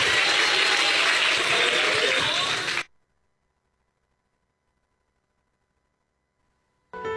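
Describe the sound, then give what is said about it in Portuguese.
A church audience claps in a dense, steady burst of applause that cuts off abruptly, followed by silence. “Pode bater palma e dar glória a Deus, igreja.”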